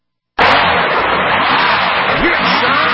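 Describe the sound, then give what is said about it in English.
A tow truck wrecker on its way to a car stuck in snow gives a loud, dense roar that starts abruptly and holds at a steady level to the end. “That is the sound of the wrecker. That is the sound of the tow truck.”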